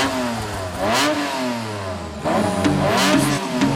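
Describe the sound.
A car engine revving hard in two long surges, its pitch climbing and dropping with each push of the throttle, loud and steady throughout with no voices.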